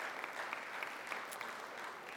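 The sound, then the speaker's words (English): Audience applause at the Vandalia campus gathering: a dense, steady wash of many hands clapping at moderate loudness for about two seconds, with no voices standing out. “I mean, hey, we're already clapping for us, Vandalia.”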